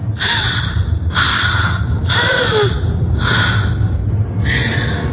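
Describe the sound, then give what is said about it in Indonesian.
Gasping breaths of a person with a suddenly tight chest struggling to breathe: five harsh, airy gasps at roughly one-second intervals over a steady low rumble, with no talk. “dadaku tiba-tiba saja sesak. Aku sulit bernafas.”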